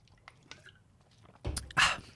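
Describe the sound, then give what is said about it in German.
Someone takes a sip of a drink: after near silence, two short, loud, wet slurping bursts come close together near the end. “Jetzt muss ich schon mal ein Schlückchen trinken, das habe ich eh lange ausgehalten.”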